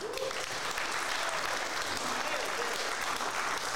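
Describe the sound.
Applause from a stand-up comedy audience after a comic's set, a dense, steady clatter of many clapping hands that holds at an even level for the whole stretch without breaks.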